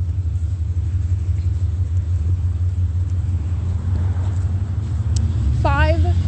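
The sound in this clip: Low road rumble of a vehicle driving past, a steady droning roar throughout, with a brief higher tonal sound close to the end.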